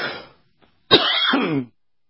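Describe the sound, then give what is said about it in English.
A person coughs and clears their throat after choking on a morning drink: a short rasp, a pause, then one harsh, sustained throat-clearing that stops abruptly. “Morning drink went down the wrong side of the throat here. So as I'm choking here”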